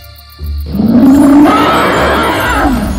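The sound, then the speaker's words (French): A dragon roars loudly in a fairy tale: a deep, growling cry that swells out of a low rumble and holds for over two seconds, its tone rising and then falling. “le dragon ouvrit ses yeux féroces et leva la tête. Voyant les deux hommes, il rugit bruyamment.”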